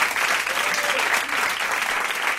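A studio audience at a live music session breaks into applause, a full, steady wash of clapping that holds at an even level for the whole moment.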